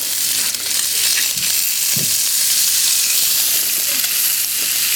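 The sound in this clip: Thin bacon slices fry in a pan with a steady, loud sizzle and a dense crackle that runs unbroken for the whole stretch, with no voices.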